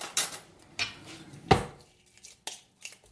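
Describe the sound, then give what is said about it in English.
A lid clatters onto a bowl of Yule bread dough in a few sharp knocks and taps of cookware, the loudest in the middle, with quieter clicks spaced between them. “And putting a lid on it.”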